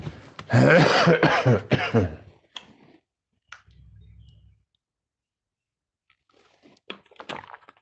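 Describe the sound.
Throat clearing and coughing: a loud cluster of harsh, rasping bursts early on, then a low hum and a few faint clicks with quiet gaps in between.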